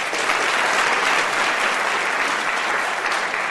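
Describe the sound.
Loud, steady applause from an audience welcoming a speaker to the lectern, dense and unbroken for the whole stretch with no voices standing out.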